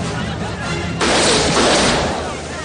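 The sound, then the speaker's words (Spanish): A gunshot bursts out in an action scene from the 1998 film U.S. Marshals, a sudden loud blast that rings on for about a second while a narrator's voice speaks over it. “Chen dispara contra Mark.”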